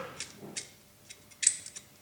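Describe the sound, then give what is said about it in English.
Faint, crisp little snaps and ticks as the outer leaves are peeled off Brussels sprouts by hand, a few scattered clicks spaced irregularly over a quiet background. “This is actually me peeling the Brussels sprouts, preparing them, so peeling off the outside.”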